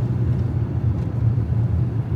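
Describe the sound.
An old car driving produces a steady, low engine and road rumble that runs continuously with no voices.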